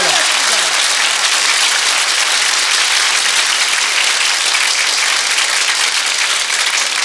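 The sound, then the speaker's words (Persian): Audience clapping, a loud, dense wash of applause from a crowd that holds steady throughout with no breaks. “دست بزن، همه دست بزنن.”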